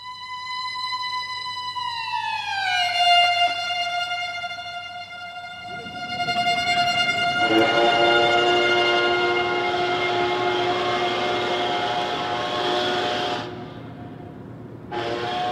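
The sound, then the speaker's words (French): Ship sirens blare in long, loud, sustained horn tones. The pitch drops early on, then a stronger, rougher horn joins and holds steadily before cutting off near the end. “Mais pourquoi le capitaine Slug fait-il actionner les sirènes ainsi?”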